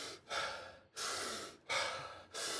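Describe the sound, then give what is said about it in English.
Wim Hof method breathing: a person hyperventilates with rapid, forceful, airy breaths in a steady rhythm, about four loud breaths with short pauses between them. “so you breathe in, you hyperventilate for a while. So you go,”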